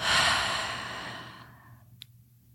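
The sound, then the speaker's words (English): A single deep, airy breath taken during a guided meditation breathing exercise, loud at first and fading over about a second and a half, followed by a faint click. “Now we're going to breathe again. Take a deep breath in for four. Hold and out.”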